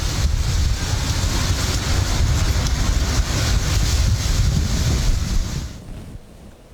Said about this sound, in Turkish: Hortumun oluştuğu ilk anlarsa kameralara işte böyle yansıdı.